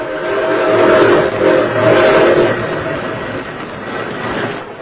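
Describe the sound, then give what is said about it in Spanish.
Whistle of a moving train blowing: a sustained, mid-pitched tone rises out of a loud, steady rolling rumble, then fades back into the continuing noise of the train. “Va pitando el tren. Eso quiere decir que vamos a llegar a una estación.”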